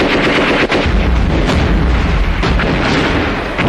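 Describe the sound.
Artillery and gunfire roar through a city-wall siege battle, a dense, loud, continuous rumble of booms broken by a few sharper blasts, with no voices.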